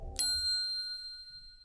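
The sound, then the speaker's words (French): A small bell is struck once, giving a bright, clear ding that rings on alone and slowly fades away. “Au tintement de la clochette, le sort se projette.”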